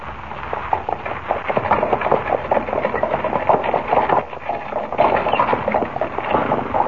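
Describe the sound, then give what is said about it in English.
A horse-drawn buckboard wagon rattles along, producing a steady, dense clatter with rapid, irregular knocks and jolts that continue throughout without pause. “How do you like riding in a buckboard, eh? Sure does buck.”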